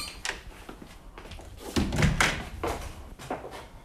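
A door opening with a few dull thumps and clatters, quiet and brief, loudest around the middle.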